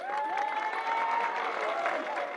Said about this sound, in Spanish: Aplausos